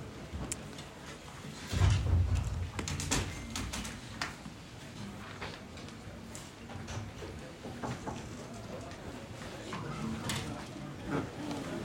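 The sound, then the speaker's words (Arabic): A door pulled shut in a classroom lands with a dull, heavy low thud early on, then a trail of light rattles and knocks over faint background noise. “اطلع برا سكر الباب”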